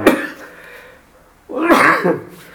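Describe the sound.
A sneeze during a religious lesson: a loud, breathy burst lasting under a second, with another short, sharp noise at the very start.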